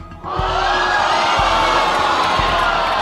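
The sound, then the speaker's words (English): A studio audience at a quiz show reacts with dismay, breaking abruptly into a loud collective groan that holds as a sustained crowd wash, with a few low thumps underneath. “The audience is appalled.”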